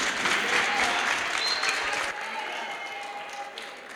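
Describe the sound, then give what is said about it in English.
An audience claps during a church sermon, a dense, loud patter of many hands that drops abruptly about halfway through to a softer, thinner clapping that continues to the end. “thank you, clap for them.”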